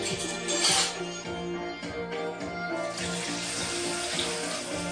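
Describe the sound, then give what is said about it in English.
Water sloshes and runs in a kitchen sink during washing up, its plug hole clogged with cornflakes; a steady, moderately loud watery rush with small splashes continues throughout. “Oh no, the plug hole's bunged up with cornflakes.”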